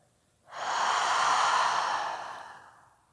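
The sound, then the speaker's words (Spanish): One long, deep breath is taken during a guided breathing exercise, in through the nose and out through the mouth. It is a loud, airy rush that swells quickly, holds, then tapers off slowly, with no voices around it. “De nuevo inhalas profundo por tu nariz. Y por tu boca sueltas.”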